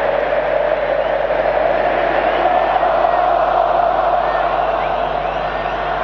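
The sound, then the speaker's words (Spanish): Mexican football fans chant in a stadium during a match against South Korea, a dense, steady roar of massed voices with no distinct words, holding at a constant level. “balón al medio, empieza a cantar el público mexicano. Vamos a escuchar qué canta México.”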